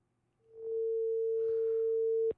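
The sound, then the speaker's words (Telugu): A telephone tone sounds after a caller's line disconnects: one steady, pure pitch that swells in, holds level for about two seconds, then cuts off abruptly. “Okay, caller line cut అయింది.”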